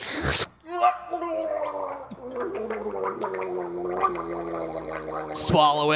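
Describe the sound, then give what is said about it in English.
Wet, throaty gargling of a mouthful of thick slime, voiced and bubbling almost continuously for about five seconds after a short gap at the start, ending with a sharp burst of noise. “have you ever tried gargling slob goblin glob before? Here we go. Have a mouthful.”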